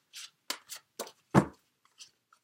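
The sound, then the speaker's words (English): Tarot cards being handled: a few short, brisk rustles and soft slaps in quick succession, with faint clicks near the end, quiet and without talk. “So let me go ahead and get the cards for you.”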